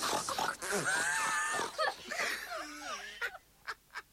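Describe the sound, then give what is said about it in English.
People imitate loud pig grunts in a contest for the loudest one. A burst of exaggerated, high-pitched grunting and squealing comes first, followed by a few short, sharp snorts near the end. “I'm going to count to three, and it's the one who does the loudest grunt.”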